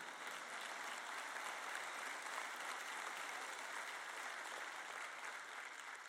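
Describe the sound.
An audience applauds during a sermon, a faint but steady wash of many hands clapping that holds evenly from start to finish.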